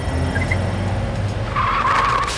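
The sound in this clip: A car drives through the streets with a steady, low engine rumble; in the final second a high tire squeal cuts in over it.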